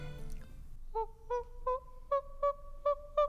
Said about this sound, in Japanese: 確かねなんかその時と場合によってまた違った鳴き声する可能性があったんですが私が見たのはこんなうさぎさんでございました